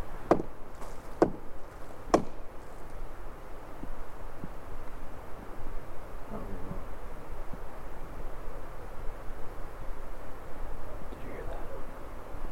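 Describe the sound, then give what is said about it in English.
Three sharp wooden knocks come in quick succession about a second apart. Faint softer taps follow over a low, steady background hiss. “There was a thump. I missed that. I was. You got a knock response again.”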